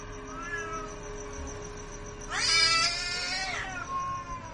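A black cat meows once, loud and drawn out with a bright, wavering tone, over faint tonal background sounds that are heard before and after.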